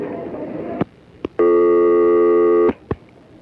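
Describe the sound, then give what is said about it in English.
A telephone tone while dialing up a hotline: one long, steady buzzing tone, with short button clicks just before and after it. “Oxford, and I'm not too sure what'll happen if we use some of these buttons here, but let's see if we can dial up their hotline.”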